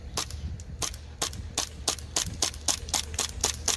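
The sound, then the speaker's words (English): A gas-powered pistol running low on gas fires many sharp, snapping cracks in a quick, slightly irregular series, each shot short and bright. “No. Why did you shoot like that? No gas in there. That's what it's supposed to sound like. Yeah. I don't think you have enough gas in it, bro. Shoots really good.”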